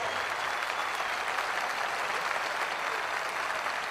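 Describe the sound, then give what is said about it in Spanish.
Audience applause at a concert at the 2024 Cosquín festival as the band's musicians are honoured, a dense, even wash of clapping that holds steady throughout with no speech. “Les pido que le demos un calurosísimo aplauso a estos excelentes músicos que comparten el escenario conmigo esta noche.”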